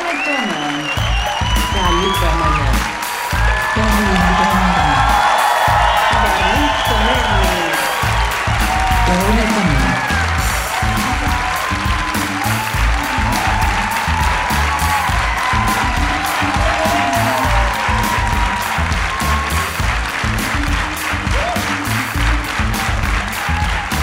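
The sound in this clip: An audience at the 100th edition of a comedy show in Bremen applauds and cheers. Dense, steady clapping keeps going for the full stretch, with whoops and cheering voices rising over it.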